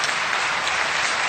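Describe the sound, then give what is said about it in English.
A round of applause from the audience at a public health conference meeting: dense, continuous clapping of many hands, loud and even from start to finish. “All of the, let's have a round of applause.”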